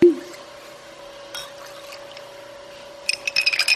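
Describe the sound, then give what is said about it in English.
Ice and glass clink as a Made in Haines cocktail is stirred at Port Chilkoot Distillery. One sharp clink opens, a low steady hum follows, then a quick run of light clinks closes. “That's the sound of a Made in Haines cocktail being stirred at the Port Chilkoot Distillery.”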